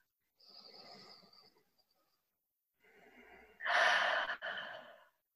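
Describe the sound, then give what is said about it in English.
Deep breaths during a guided relaxation session: two long, airy breaths separated by a pause, the second one louder and stronger. “So, cool. Okay, so let's get settled. Take a few deep breaths.”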